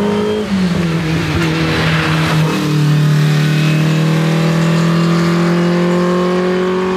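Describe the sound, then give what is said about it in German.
Racing cars at a hill climb race in Eichenbühl, their engines roaring loud and continuously; the engine note is high and strained, then settles briefly lower and holds steady as the cars power on. “Ja, das Bergrennen ist zurück.”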